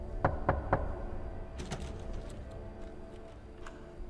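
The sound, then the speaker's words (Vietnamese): Three quick, sharp knocks from inside a coffin, evenly spaced and fairly loud, followed by a few fainter scattered taps and clicks. “Những tiếng gõ cứ vang lên, đáng sợ.”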